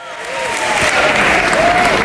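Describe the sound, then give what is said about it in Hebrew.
A crowd applauds at a precinct caucus that is starting on time, dense clapping that builds over the first half-second and then holds steady, with a few faint voices calling out over it. “מחיאות כפיים כי מתחילים בזמן את הקאוקס.”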